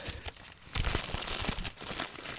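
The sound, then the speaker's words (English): Paper mail is crumpled and shuffled in a continuous crinkling rustle that is dense and bright, with a brief quieter dip near the start before the handling grows steady. “It's the sound of mail. All the mail we got. Is that also how you handle your mail? Is you of like shuffle it and crumple it?”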